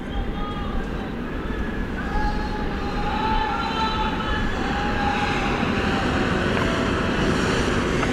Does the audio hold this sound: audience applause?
no